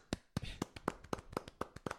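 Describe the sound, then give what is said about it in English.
Small applause of only a few hands: crisp, separate claps in a loose, fairly steady rhythm, faint and heard alone. “So small applause there.”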